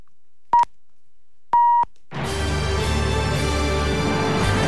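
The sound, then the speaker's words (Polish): Midnight time signal beeps from a Polish radio station: a short steady pip, then a longer pip of the same pitch, after which a loud, dense wash of sound takes over. “Za chwilkę będzie sygnał czasu i północ.”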